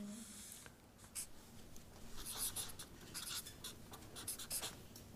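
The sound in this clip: Scratchy strokes of a word being written by hand, a quick run of short, dry rubbing sounds at moderate volume with no voices.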